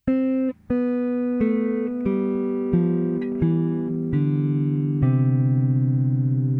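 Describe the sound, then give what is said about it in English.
A descending C major scale played on guitar: eight single notes step steadily downward in pitch at an even pace, each ringing clearly with no talk. “To go backwards or descend, the notes would be C, B, A, G, F, E, D, and C, and it would sound like this.”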